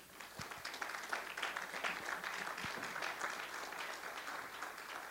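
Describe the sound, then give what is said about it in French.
An audience applauds during a church service, a steady, dense wash of clapping that holds at an even level for the whole stretch with no voices standing out. “Nous allons acclamer la parole.”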